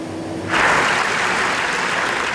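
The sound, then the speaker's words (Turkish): Applause for a film at the Venice festival: loud, dense clapping breaks in abruptly after a quiet opening and then holds at a steady, even level to the end. “Venedik'te 25 dakika alkışlandı.”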